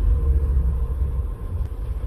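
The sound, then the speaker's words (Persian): Cars queued in traffic at a roundabout, two lanes deep, give a low, steady engine rumble. The murmur is continuous and stays at a fairly even level, with no distinct horns or passing vehicles standing out. “اینا همه ماشینایی هن که تو صفن. دو لاین”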